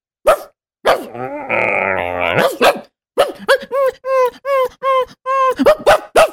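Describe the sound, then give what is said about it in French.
A young man imitates a whimpering, crying dog with his voice: a few long strained whines, then a string of short, high, whining yelps in quick succession, fairly loud and with no other sound. “Il vous émotionnera avec son jeune homme de 25 ans qui imite un chien.”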